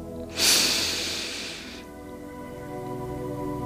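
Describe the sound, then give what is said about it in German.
One deep breath during a guided breathing exercise: a loud, rushing airy hiss that bursts in sharply, then tapers off over about a second into a quiet, low background. “Atme tief ein. Und aus. Tief einatmen.”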